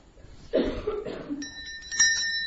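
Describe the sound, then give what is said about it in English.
A bell rings, bright sustained high tones that begin partway through and are struck again shortly after, ringing on to the end over a quiet background. “ling, ling, ling, ling, ling, ling, the bell was sounding.”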